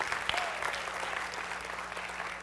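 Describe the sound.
Audience applause: dense, steady clapping from many hands, fairly faint and even in level, continuing unbroken throughout.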